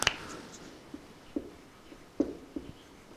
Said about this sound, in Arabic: خلينا نكتب الزمخشري،